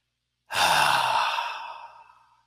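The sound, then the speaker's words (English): A single deep breath drawn in by a seated person: one long, airy, breathy rush that starts abruptly and loud, then slowly fades away over about two seconds, with no talking. “everybody, take a deep breath in as you're sitting there.”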